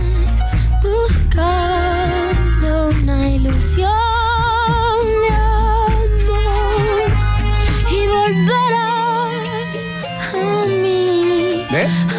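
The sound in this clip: A Cuban bolero plays in a cover version: a woman sings a melodic line with sustained, wavering notes over steady instrumental accompaniment, and the voice slides between phrases throughout.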